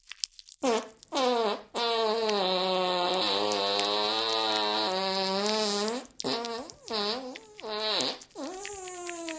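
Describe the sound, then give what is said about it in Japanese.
A fart sound: a short buzzy burst, then a long sustained tonal fart of about four seconds with wavering pitch, followed by a few shorter rippling bursts, fairly loud with no talk over it. “ご主人様の臭い生おなら全部顔で受け止めるのよ。”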